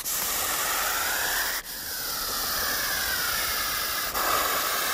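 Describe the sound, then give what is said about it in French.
Loud, steady hissing of a viper, a harsh breathy rush that runs almost without pause for several seconds and is cut only by a couple of brief breaks. “Alors on a aussi une vipère à vous proposer, écoutez la vipère.”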